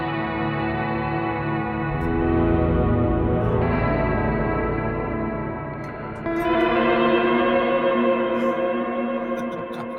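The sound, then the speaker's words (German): An instrument runs through a compressor, pitch-shift delay, digital reverb and vibrato, producing long sustained chords that swell and shimmer with echoing tails. The sound dips briefly before a second sustained chord rings out with no talking. “das ist der Showtime, ohne Box und dann aber hier mit Kompressor, Pitch Shift Delay, Digital Reverb und noch ein Vibrator hinten dran.”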